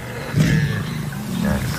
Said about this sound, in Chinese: 狮子并不害怕。 是的，他们不打算离开。 哦，狮子离得太近了。